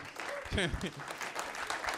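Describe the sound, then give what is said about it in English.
Audience applause at a stand-up comedy show: a burst of clapping mixed with crowd noise, fairly quiet and uneven, with a voice speaking over it as the clapping carries on. “Can't believe you're all applauding that.”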